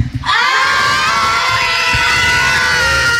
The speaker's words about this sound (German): Und so, und wenn hier gefühlt einfach mal 200 Kinder im Studio stehen, dann klingt das wie?